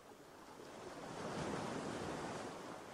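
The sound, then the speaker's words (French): Ocean waves wash onto a beach in a soft, steady rushing surf that swells gently in the middle and eases off, faint and continuous with a breezy hiss and no voices. “Ce bruit de l'eau, encore, vous aide et vous accompagne. Il vous transporte et vous dispense du moindre effort.”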